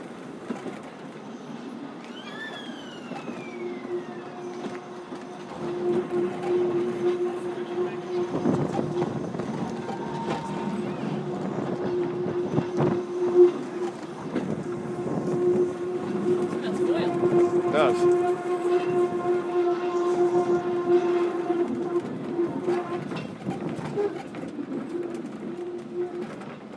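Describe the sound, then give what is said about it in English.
Train wheel flanges squeal as the carriage rounds bends. Sustained high-pitched whines ring out over a steady rail rumble and grow louder and more frequent in the second half. “The noises are quite good as well. The flange noise as we go around the bends.”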